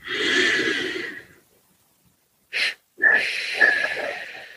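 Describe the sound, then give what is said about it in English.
A deep breath in and out during a guided relaxation exercise: a long, loud, airy rush of breath, a silent pause, a brief puff, then another long breathy stretch of air. “Inhale and release. Just one more.”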